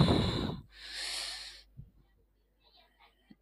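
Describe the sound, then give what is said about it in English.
A deep breath is drawn in during a guided meditation: a strong, airy inhale, then a long, softer breathy hiss. After that the sound drops to near silence with a few faint small noises. “All right, taking a deep breath.”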